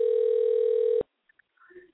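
An unanswered phone goes to voicemail: one loud, steady electronic tone holds for about a second and cuts off sharply, then a few faint, brief sounds follow.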